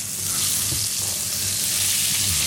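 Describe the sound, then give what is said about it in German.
Butter melts and sizzles in a frying pan, the start of a rich cream sauce before bacon strips go in. A steady, dense crackling hiss holds at an even level throughout, with no voices over it. “So, jetzt ist die Butter geschmolzen, jetzt kommt wahrscheinlich der Speck rein, oder erst Zwiebel?”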